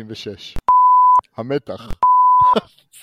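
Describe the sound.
Two pure electronic beeps in a recording, each a steady mid-high tone lasting about half a second, with people talking before, between and after them.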